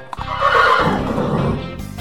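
A horse whinnies loudly in one long neigh that lasts well over a second, with a brief click just before it. A faint clatter follows at the end.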